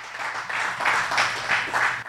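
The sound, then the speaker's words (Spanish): A church audience applauding: a short, loud burst of clapping that swells and ebbs in quick pulses over about two seconds. “Date un aplauso.”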